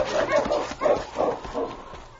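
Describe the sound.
Dogs bark in a quick series of sharp, repeated yaps and yips as a working team races through snow toward a burning cabin, the barks loud and close together.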